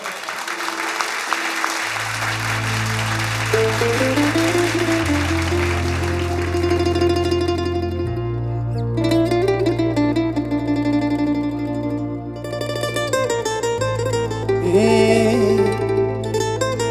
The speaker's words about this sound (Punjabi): ਤਾਲੀਆਂ ਮਾਰ ਦਿਓ ਛੋਟੇ ਭਰਾ ਦੇ